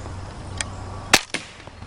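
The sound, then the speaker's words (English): A pump-action gun is cocked and fired: a faint click comes first, then a loud, sharp snap and a softer crack close behind, over a quiet background. “Well, you always pump it. Cock action. And you gotta pump it. Then aim it. And fire.”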